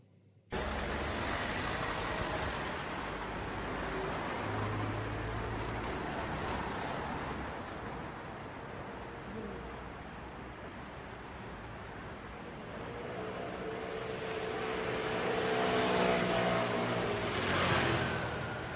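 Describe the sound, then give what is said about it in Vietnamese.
A car pulls away through noisy city traffic, a dense, continuous rumble of road vehicles that swells louder toward the end. “Chiếc xe lăn bánh rời khỏi thành phố ồn ào náo nhiệt. Những tiếng còi xe bỗng chốc vang lên một cách inh ỏi.”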